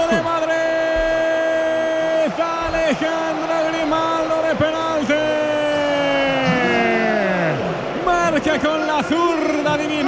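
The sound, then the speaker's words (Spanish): A stadium crowd at a Madrid derby erupts after a penalty goal, a loud, sustained din with wavering horn-like tones that slide in pitch throughout. “celebrándolo ahora con la grada que estalla”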